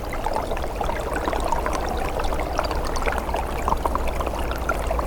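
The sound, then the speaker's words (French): Water trickles beneath ice, a steady, continuous gurgling and bubbling flow with many small, irregular splashes and no pauses. “Un filet d'eau se fraye un passage sous la glace.”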